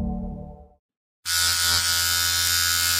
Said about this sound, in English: I was shaving my face.